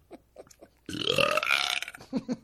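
A single long, loud, rasping burp runs for about a second, set between short, quieter bursts of sound before and after it.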